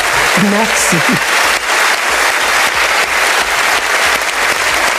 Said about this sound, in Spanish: la Palma de Oro de Honor fue para Barbara Streisand, que no pudo estar presente, pero quien envió un agradecimiento y fue ampliamente ovacionada por el público.